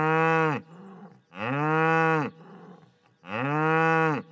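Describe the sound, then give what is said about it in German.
A Wagyu cow from Saxony lows three times, each moo long, loud and resonant, with short quiet gaps between them and no other sounds. “Das war aber jetzt nicht japanisch. Das war tatsächlich die Fuji, die kommt aus Chemnitz. Das ist ein sächsisches Rind.”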